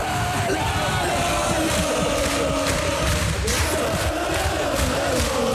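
A football stadium crowd in Elversberg roars in celebration of promotion to the Bundesliga, a dense, continuous wash of cheering with scattered yells and whoops, loud and steady from start to end.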